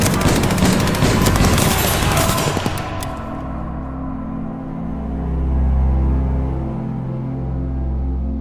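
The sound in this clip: Gangsters open fire in a dramatized shootout: a loud, dense burst of many rapid overlapping shots lasting about three seconds. The gunfire then gives way to a low, sustained rumbling drone.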